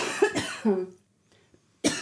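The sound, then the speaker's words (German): Harsh coughs from a person with a cold: a short cluster of coughing at the start, then a brief silence and one more sharp cough at the end. “Ich muss mal kurz husten.”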